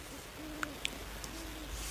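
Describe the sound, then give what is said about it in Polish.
Owl hooting, a few soft, low, drawn-out hoots heard faintly against a quiet, hissy background. “No pewnie, że sowa.”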